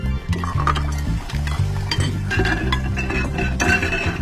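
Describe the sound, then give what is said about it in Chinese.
Dishes and bowls are being washed, with light clinks and knocks of crockery and utensils scattered throughout, heard over a steady low tonal background. “快，先刷碗。”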